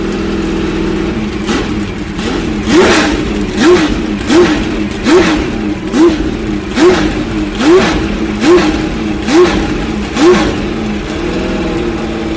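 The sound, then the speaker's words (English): Porsche 962 race car with a flat-12 engine revving at a motor racing festival, a loud series of evenly spaced throttle blips rising over a rough, constant idle, repeating steadily without voices. “That's a nice sound, isn't it? We're standing behind what I think is a Porsche 962 in martini colours. A flat 12.”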